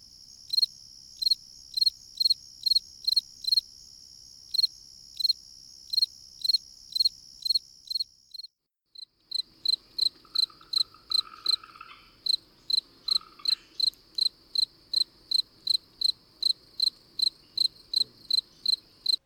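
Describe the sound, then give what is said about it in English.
A fall field cricket chirps in many short, evenly spaced high-pitched pulses, with a brief pause midway before the steady rhythm resumes against an otherwise quiet background. “It's a fall field cricket.”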